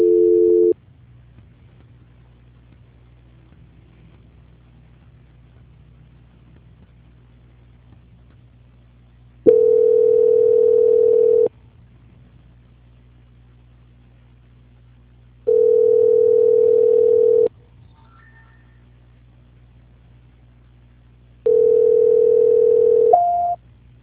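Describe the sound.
A telephone line tone sounds while a call is being transferred. Steady two-second tones repeat at regular intervals with long silences between: four in all, the first cut off at the start.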